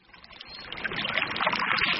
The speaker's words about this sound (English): Cool, clean water bubbles up from the ground about 80 miles from where the borders of Oregon, Nevada, and California meet.